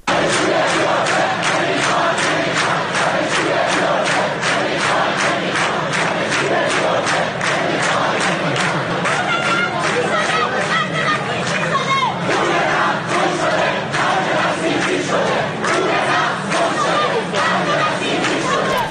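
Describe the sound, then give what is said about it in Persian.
Students at the University of Tehran chant protest slogans together, a dense crowd of voices keeping a steady, rhythmic beat that stays loud and unbroken throughout. “امروز در دانشگاه تهران هم دانشجوها برای ساعاتی دست به تجمع زدن و شعارهای مختلفی رو میدادن، از جمله اینکه پول نفت گم شده، خرج بسیجی شده.”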